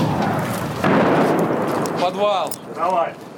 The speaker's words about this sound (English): The Russians are just a kilometre, maybe three away. Russian guns are so close you can hear the whole arc of their shells.